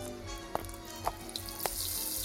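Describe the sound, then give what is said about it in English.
Water runs from a tap to wet a towel for burned fingers in a kitchen, a steady faint hiss with a few soft splashing ticks spaced through it. “She wet a towel and wrapped my red fingers.”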